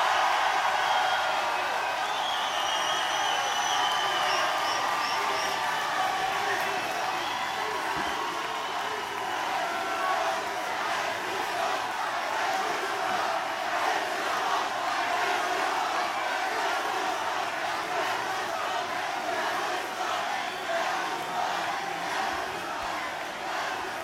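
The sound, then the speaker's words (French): A large crowd roars a sustained ovation for Jean-Luc Mélenchon at a political rally on the evening of 22 April 2012. The cheering and shouting stays loud and dense throughout, with no clear break. “je vous demande de lui faire, même si ce n'est pas pour lui, même si c'est pour la résistance que nous représentons, une ovation pour Jean-Luc Mélenchon.”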